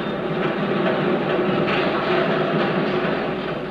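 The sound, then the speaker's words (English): Busy industrial hum from a sawmill, railroad yard and factories: a dense, steady, loud din with a rumbling, rail-like clatter that stays even throughout and never drops away. “you can hear the busy hum of industry in the sawmill, in the railroad yard, in the factories,”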